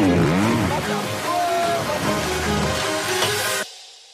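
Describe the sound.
An engine accelerates hard, a loud, continuous roar with wavering, sweeping pitch early on that holds steady and then cuts off abruptly just before the end.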